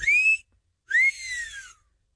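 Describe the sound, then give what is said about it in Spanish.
A two-note wolf whistle aimed at women, the first note rising and then held high, the second rising sharply and then gliding down, loud and shrill with no talk. “antes que nada, el chiflidito para sus nenas.”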